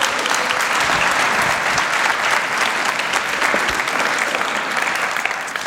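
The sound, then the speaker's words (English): An audience applauds to welcome a speaker at a church service, with dense, steady clapping that stays loud and even from start to finish. “So I want you to put your hands together. Let's give him a really rich welcome.”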